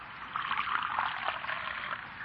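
Coffee poured into a cup, a steady, soft trickle of liquid that runs without a break for about two seconds, with no talking over it.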